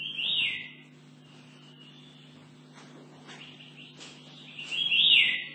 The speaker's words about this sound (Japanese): 初めてチメドリの仲間を見た台湾の鳥の代表として、ミミジロチメドリの声をお聞きください。